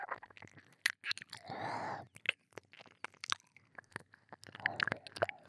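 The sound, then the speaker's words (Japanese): Wet ASMR ear-eating mouth sounds as lips and teeth chew and nibble on an ear: many quick, close clicks and smacks in an uneven rhythm, with a short breathy hiss partway through. “耳、もっと食べちゃうよ。”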